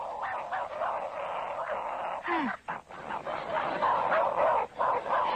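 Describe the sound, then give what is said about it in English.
A dog barks and yips repeatedly, with a short falling whimper partway through, the sounds coming in uneven bursts. “Where is that dog?”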